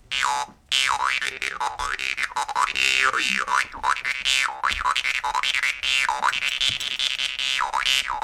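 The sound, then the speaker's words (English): A Siberian jaw harp, the komus, twangs in a steady rhythmic pattern. Its bright vowel-like tone sweeps up and down many times over a sustained low drone, loud and continuous, with no voices. “A less threatening-looking instrument that's central to the band is the komus, the Siberian variation of the jaw harp.”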